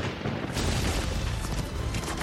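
Gunfire in a video game shooter, a dense, continuous roar of loud booming noise with no clearly separate shots, filling the whole stretch without a break.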